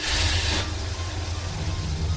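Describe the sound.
A car drives off after shifting into first gear, giving a steady low engine rumble beneath a hiss that cuts off early on.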